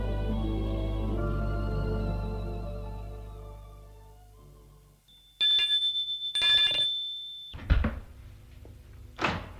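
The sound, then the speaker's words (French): Doorbell ringing at the parents' house door: a single sustained high-pitched ring after a musical passage fades out, followed by a couple of brief clattering door sounds. “Le lendemain, très ému, il va sonner chez les parents.”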